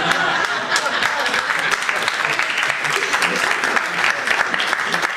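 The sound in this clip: Audience applause after a joke, a dense, steady burst of many hands clapping that holds at an even level throughout.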